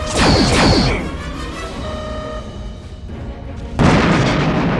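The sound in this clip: Starship weapons fire and a target exploding during a space battle: a loud crashing burst opens, a sustained rumbling tail follows, then a second sharp blast hits near the end.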